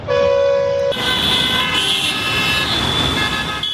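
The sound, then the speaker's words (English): Car horns honk in street traffic in Dhaka, Bangladesh. One sustained horn tone fills the first second, then several loud horns overlap above a constant rumble of traffic. “That's the sound heard on the streets of Bangladesh's capital, Dhaka, for years. But, says the government, by next year the sound of vehicle horns or honking will be a distant”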